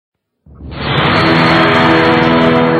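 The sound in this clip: A slowed-down sound effect from the film Star Wars: a deep, roaring rush that swells up quickly from silence and holds loud and steady to the end.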